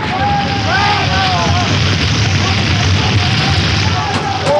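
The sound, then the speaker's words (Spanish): Fire spreading through a burning building in a radio drama effect: a loud, dense, continuous roar of flames with thin whistling tones rising and falling over it. “El fuego se propaga rápidamente. Las llamas envuelven el edificio y los criminales tratan de alcanzar la salida”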